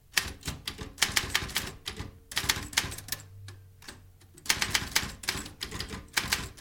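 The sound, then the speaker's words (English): Rapid typewriter clacking as case notes are typed up, with dense bursts of sharp keystrokes, a slower stretch near the middle, then quick, steady typing again. “Thought I'd type up these notes from the Havisham case, unless you have something more important for us to work on.”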